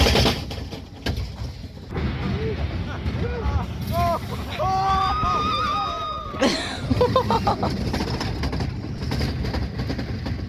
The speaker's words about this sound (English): That's got to be a roller coaster. It is the roller coaster. It's at State Fair.